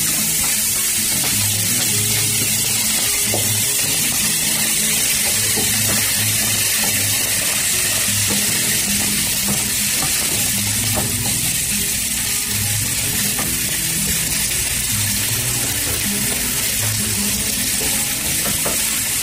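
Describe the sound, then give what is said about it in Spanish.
Chopped spring onion fries in a pan for a traditional Colombian dish, giving a steady, loud, crackling sizzle that continues unbroken for the whole span without talk. “Vamos a poner la cebolla que ya está picada y listo. Cebolla larga.”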